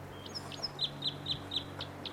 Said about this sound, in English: Bird's right in the tree above the camp.